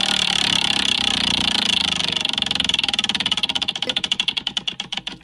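A prize wheel spins with a fast, dense stream of ratcheting clicks that slow into distinct, widely spaced ticks as it winds down.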